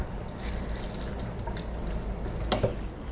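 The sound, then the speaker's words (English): Tap water runs steadily while a grater is washed in a kitchen sink. It makes a continuous gushing, splashing hiss with a couple of brief knocks near the end. “And let's see, wash my grater.”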